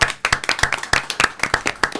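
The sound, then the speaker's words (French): An audience claps for a group of middle-school pupils, with a burst of brisk, uneven hand claps that stays fairly loud and steady for about two seconds. “Hein, donc applaudissements quand même. Oui, on les applaudit.”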